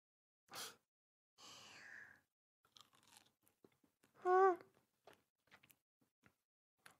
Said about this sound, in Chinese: 妈妈今天做的虾好好吃啊，我吃的都停不下来了呢